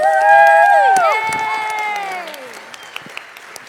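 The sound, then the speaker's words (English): Loud crowd applause and cheering welcome musical guests at a Christmas outreach evening. Sustained whoops slide downward and fade into scattered clapping, with a few sharp claps near the end. “Will you put your hands together and help me welcome the Manger Boy?”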